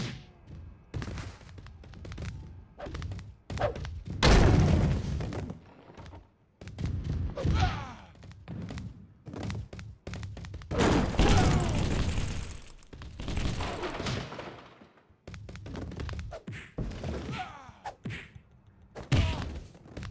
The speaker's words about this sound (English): The power bomb number one. Out of the ring. Caught him.